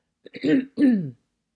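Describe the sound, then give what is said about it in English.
Throat clearing by a person: two short, voiced, rough bursts, the first preceded by a small catch, heard alone against silence. “Sorry about all the throat clearing here.”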